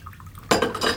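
Tea is poured from a teapot: a quiet start gives way to a sudden clink of china and a short, splashy pour of liquid, all within about a second.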